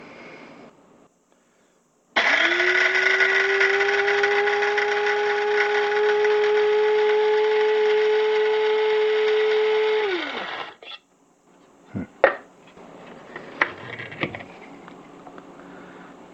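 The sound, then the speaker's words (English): A grinder running a coarse grind: a loud, steady motor whine that spins up quickly, holds evenly for about eight seconds, then winds down, followed by a few brief clicks and knocks. “It should take about, this particular grinder only takes about 15 seconds each grind.”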